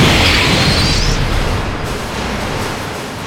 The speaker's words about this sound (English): What the hell is this thing? It's a bomb. It's a... boom.